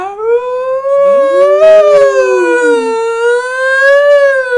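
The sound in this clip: A person's voice imitates the howl of a wolf or coyote from a video game: one long, loud, continuous howl whose pitch wavers smoothly up and down.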